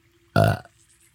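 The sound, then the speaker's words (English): A single loud burp right after a meal: one low, gurgling belch of about a third of a second that rises abruptly out of quiet and stands alone, with no talk over it. “Nice on cue burp. I know. It just came.”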